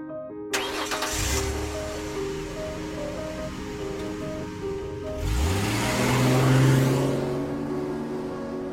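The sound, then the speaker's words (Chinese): A car engine starts and settles into a low, steady hum, then revs up with rising pitch and grows louder as the car drives off. “三人一同出发，路上谁也没有说话。波斯开车”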